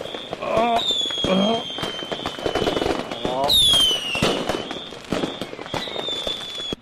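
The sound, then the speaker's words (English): Fireworks exploding, with whistling shells that rise and fall in pitch among sharp cracks and crackling bursts that go on throughout, under excited shouting voices. “Why didn't you tell me that these things exploded? I'm sorry? The fireworks, they exploded.”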